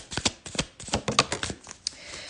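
Tarot cards are shuffled before drawing a card, giving a quick series of soft, papery riffling bursts that stay fairly faint throughout.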